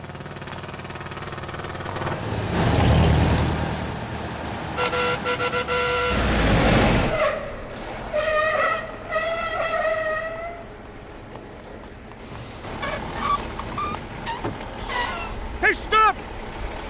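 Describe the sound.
Cars and trucks passing on a highway: a broad whooshing rumble of engines and tyres rising and falling, with a horn toot near the end and people talking.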